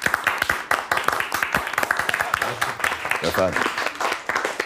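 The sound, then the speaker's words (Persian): Applause in honour of a music teacher at a birthday gathering: a crowd claps steadily and briskly throughout, with voices mixed in among the claps. “خواهش میکنم یه دست بزنین به افتخار استاد که دیگه برای ما نه نیارم.”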